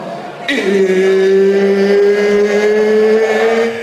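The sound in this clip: A car engine sound effect in an advertisement for car audio speakers: a loud, sustained engine drone that starts abruptly and climbs slowly in pitch over about three seconds.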